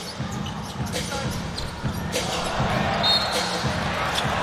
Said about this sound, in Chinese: 自己运球是失误了。